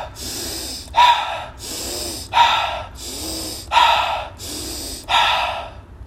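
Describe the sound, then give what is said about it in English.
Slow breathing in through the nose and out through the mouth, with airy inhales and stronger exhales alternating over several steady cycles, clear and loud, with no talk. “Now we're going to continue with that pattern. Inhale, nose. Exhale, mouth.”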